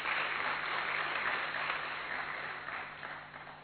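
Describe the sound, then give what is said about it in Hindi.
An audience at a talk applauds after being asked to clap for themselves. The clapping is soft and sustained and slowly fades toward the end. “अपने लिए ताली बजा दीजिए”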